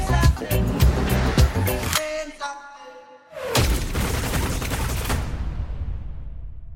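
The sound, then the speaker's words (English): Rapid machine-gun fire within a song: a dense clatter of quick bursts for about two seconds, then a short lull, then another loud burst of noisy fire that slowly fades. “Is that like a machine gun scene?”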